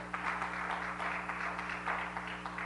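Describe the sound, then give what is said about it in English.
A church audience clapping their hands in praise during a worship service: soft, continuous patter of many hands over a steady low electrical hum. “And all the time, give him a hand clap of praise”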